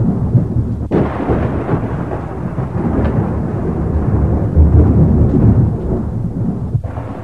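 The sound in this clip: Thunderstorm over a ship at sea, a loud, continuous rumbling roar of thunder mixed with rain that swells toward the middle, with sharp cracks near the start and again near the end.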